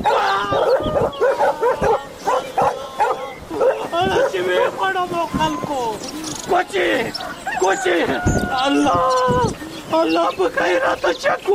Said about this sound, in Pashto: خلکو دا سپی د چا دی؟ وی تړی چې ومې نه خوري.